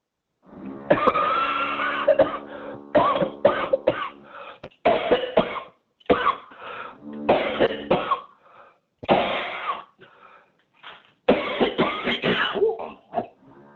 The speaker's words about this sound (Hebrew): כן, כן, השתעלתי. השתעלת מאוד.